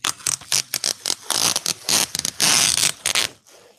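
Something being peeled off, heard as loud rasping, tearing strips: quick stuttering pulses at first, then longer drawn-out rips, before the sound stops and fades to quiet.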